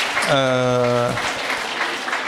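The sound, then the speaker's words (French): Audience applause at a panel discussion, a steady wash of clapping throughout, with a sustained voice-like tone sounding over it early on. “Oui, on peut applaudir, tout à fait.”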